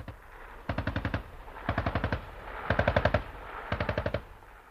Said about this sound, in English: And the targets in front. Target in front. Normal fire, engage. Normal fire, engage.